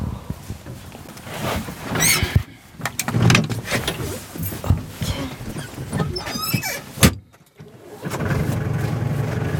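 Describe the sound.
Car doors thump shut and an engine starts as hunters set off for a deer enclosure. A few clunks and knocks come over a running engine, then a brief lull and a steady engine hum as the car drives off.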